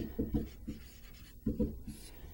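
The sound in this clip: Pen strokes scratch in short bursts as the steps of a calculus related-rates problem about a shuttle launch are written out, faint and with no one talking.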